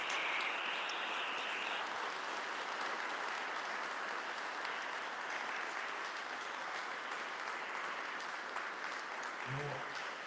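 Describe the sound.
Sustained applause from an audience at a conference: a steady, dense clatter of many hands, fairly soft, continuing evenly for the whole clip without a clear break.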